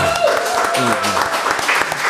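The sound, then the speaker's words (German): Steady clapping and applause from a group honouring a woman who prepared platters of cheese, sausage, grapes, strawberries and gherkins at a tasting. Voices talk over the continuous clapping throughout. “Wo ist hier der Applaus für die Dame?”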